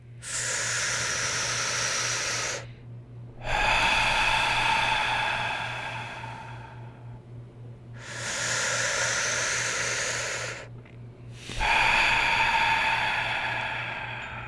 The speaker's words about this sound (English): how to do some three deep breaths, and we're going to start off on 3, 2, 1.